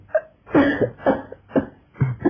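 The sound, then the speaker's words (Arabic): A young man coughs from the smoke of burning wet firewood, giving a series of short, harsh, throaty coughs at an uneven rhythm with brief breaths between them. “اصل حطب كان مبلول ودخن خلاني كحيت.”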